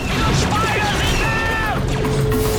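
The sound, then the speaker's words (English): Laser fire and explosions from a space battle in which droid starfighters attack, with blasts deflected by a lightsaber: a dense, continuous barrage of crashing booms, sharp zaps and whining tonal sweeps that never lets up. “Droid starfighters attack, firing lasers which Anakin deflects with his lightsaber. Take it down! Take it down! The battle rages.”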